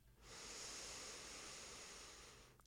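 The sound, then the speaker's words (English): A single long, soft inhalation through the right nostril during alternate nostril breathing, heard as a faint, steady airy hiss that swells and then fades. “Inhale through the left. Close and exhale through the right. Inhale right.”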